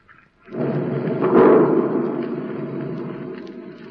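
Depth charges fired from a ship explode in a deep, rumbling roar that swells into a heavier burst partway through, then slowly fades over a few seconds.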